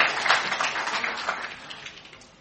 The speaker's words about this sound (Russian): Ну, давайте в отсутствие его поздравим, похлопаем, пожелаем ему.